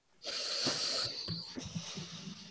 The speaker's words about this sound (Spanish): y esperar un poco y después soplar el aire